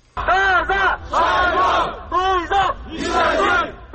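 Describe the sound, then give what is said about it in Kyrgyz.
Protesters rally in front of Kyrgyzstan's Supreme Court, demanding that the Kyrgyzstan political party be barred from elections. A crowd chants and shouts in loud, rhythmic bursts, its voices rising together in repeated cries separated by brief pauses. “Жогорку соттун алдында Кыргызстан саясий партиясын шайлоодон четтетүүнү талап кылгандар жана аларды колдогондордагы акцияга чыгышты.”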